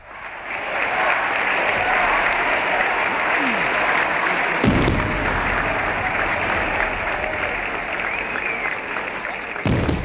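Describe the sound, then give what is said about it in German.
Crowd cheering and applauding at the 1961 Leipzig welcome of a Soviet cosmonaut made an honorary citizen: a loud, dense, unbroken roar of clapping and cheering that holds steady throughout. “Das ist der Jubel, der 1961 den sowjetischen Kosmonauten German Titow als Ehrenbürger Leipzigs empfing.”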